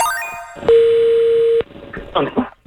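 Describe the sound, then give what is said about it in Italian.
Dial tone after a telephone line cuts off: a single loud, steady, mid-pitched tone lasting under a second, with a click at each end, between brief stretches of a voice talking. “Scusi, è andata via la linea, pardon.”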